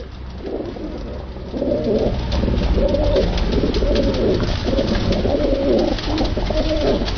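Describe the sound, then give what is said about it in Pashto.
Pigeons cooing at a pigeon and bird market in Kabul, where pigeons and other birds are sold: dense, continuous overlapping coos that grow louder after the first moment and carry on steadily. “کابل کې د کافوري شکوڅه هغه ځای دی چې هلته له کوترو سره نور مرغان هم خرڅیږي”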